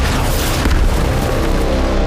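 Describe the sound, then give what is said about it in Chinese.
An artillery bombardment pounds enemy positions, a dense, continuous low roar of booms that blend together without distinct separate blasts, loud throughout. “秦军长为了今天的反攻，他从28日开始便每天12点对敌阵地进行炮击。”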